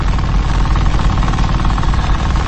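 A motorcycle engine runs steadily while riding up an incline, giving a continuous rough, rapid knocking throb with a low rumble and even loudness throughout.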